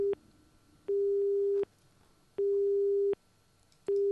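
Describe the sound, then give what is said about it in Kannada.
A telephone busy tone sounds after a call is cut off: a steady mid-pitched beep pulsing on and off at an even rhythm, with about three full tones separated by equal gaps, faint and alone. “ಅವರ ಕರೆ ಕಟ್ಟಾಗಿದೆ ಅಂತ ಅನ್ಕೊಳ್ತೀನಿ.”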